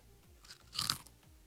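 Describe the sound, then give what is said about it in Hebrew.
Crunchy Bisli snack being chewed, with soft, crisp crunches and a louder burst of close biting and crunching in the middle. “אתה יודע שמישהו אוכל לי ביסלי באוזן, אני מקבל את כיף חרדה.”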